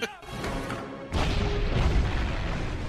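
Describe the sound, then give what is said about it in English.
A C4 explosive charge blows up in a Stargate scene. A sudden deep boom cuts in after a stretch of voices and tones, followed by heavy, sustained rumbling that stays loud to the end. “Stargate teams always carry the good C4 that just blows stuff up.”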